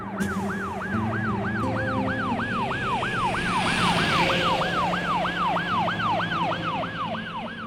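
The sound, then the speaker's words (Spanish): A police patrol car's siren on a Bogotá street wails in quick rising-and-falling sweeps, about two per second, loud and steady throughout, over a low rumble of traffic. “observa cómo pasa una patrulla de policía”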